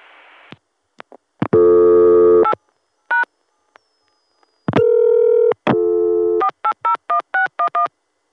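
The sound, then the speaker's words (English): Telephone line tones as a caller dials 0 for the operator: a short hiss and a few clicks, then long steady multi-tone signals, followed by a quick run of short dialing pips of shifting pitch. “Gonna call back and dial 0.”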